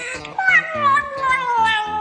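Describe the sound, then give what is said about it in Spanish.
A cat meows, giving a couple of drawn-out, wavering meows that slide downward in pitch, fairly loud over a rhythmic low pulsing background. “Sobre todo los gatos.”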